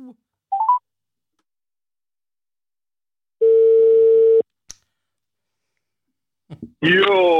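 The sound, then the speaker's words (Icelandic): Telephone tones as a call is placed: a single steady mid-pitched beep lasting about a second, with brief vocal sounds before and after it. “Og ég ætla að hringja hérna í mann.”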